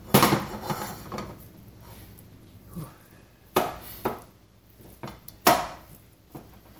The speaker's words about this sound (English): Now, the way it's used in this recipe, you kind of have to grab a wooden spoon or something and break it into pieces.